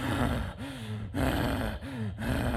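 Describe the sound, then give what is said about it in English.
A person's voice imitates an angry, exasperated human breath, producing a few loud, harsh, rasping huffs with a low groaning edge. The breaths come in close succession with brief dips between them. “I was hearing this angry, exasperated breath behind me, like,”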